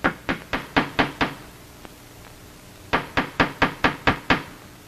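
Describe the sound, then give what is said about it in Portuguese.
Knocking on a door in a hallway: two quick series of sharp, evenly spaced knocks separated by a pause of a second or so, loud and crisp with no voices. “No corredor, Gonçalves bate na porta.”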